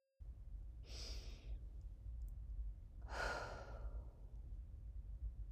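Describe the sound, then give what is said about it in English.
A person takes a slow, deep breath during a relaxation exercise: a soft, airy inhale, a pause, then a longer, fuller breathy exhale. It is faint, with no voices over a low background hiss. “Let's take 3 deep breaths.”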